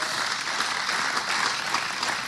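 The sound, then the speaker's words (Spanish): A church audience applauding, many hands clapping in a steady, dense roar that holds at an even level for the whole stretch with no pause. “Denle ese aplauso.”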